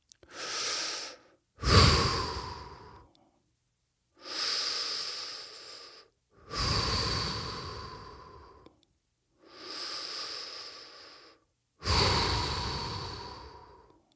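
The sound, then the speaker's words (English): Three deep breaths, each a hissing inhale followed by an exhale, give six long whooshing breath sounds separated by short pauses. The breaths are fairly loud and heard alone, with no talking. “Take three deep breaths.”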